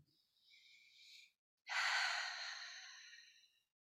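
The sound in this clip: Slow, deep breathing during a guided meditation: a soft, drawn-out inhale, a short pause, then a longer and louder exhale that fades gradually, with no talk.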